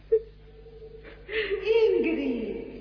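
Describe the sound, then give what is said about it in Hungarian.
A woman's crying: a brief high note, then a wavering, sobbing wail that grows louder and sinks lower in pitch toward the end. “Sír! Igazán sír!”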